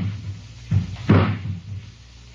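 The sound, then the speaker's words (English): A ladder is set against the side of a house at night by an intruder, giving a few dull thuds and knocks at uneven intervals over a faint low hum, with no voices. “someone's putting a ladder against the side of the house. They're going to climb in one of the windows.”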